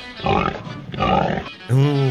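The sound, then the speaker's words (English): A pig in a number-guessing game oinks: two rough, grunting snorts followed by a short, higher, tonal squeal, all fairly loud. “and the pig says”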